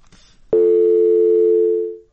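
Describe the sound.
Telephone line tone after a call connection dropped: faint hiss, then one sharp onset into a single loud, steady, continuous tone that holds and then fades out.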